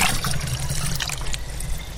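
Water splashes and trickles as samples are drawn from a lake with a sampling rod from a metal walkway out from the shore, a steady, bright, gurgling flow with no talk.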